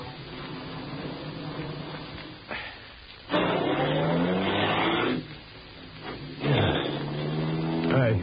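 A car turns around at a dead end in two loud surges of engine revving with shifting pitch, separated by a quieter idling stretch.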